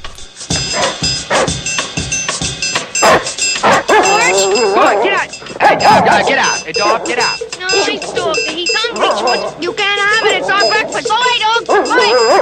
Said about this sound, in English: Hey, dog, get out! Hey, dog, get out!